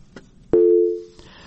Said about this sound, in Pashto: زه فکر کوم چې دغه اوریدونکي انتظار ډیر کړی، ټلیفون لیکې قطع شوی، بل ته به ورشو.